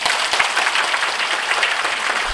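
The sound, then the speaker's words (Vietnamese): Audience applause at a gathering: dense, steady clapping that holds at an even, fairly loud level for the whole moment, with no voices over it. “quý vị nên cố gắng ủng hộ cho Đạo Hữu Tâm Hiệp một tràng pháo tay”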